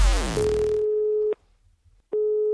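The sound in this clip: An outgoing telephone call rings out as a steady low tone that holds for about a second, stops, then resumes, preceded by a brief noisy falling sweep.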